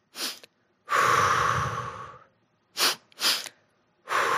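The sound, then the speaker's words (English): A person demonstrating a physiological sigh with audible breathing: short, sharp inhales and one long, breathy exhale, with a pair of quick inhales close together near the end, each breath loud and airy. “So what the physiological sigh is, right? It's basically two quick breaths in, right?”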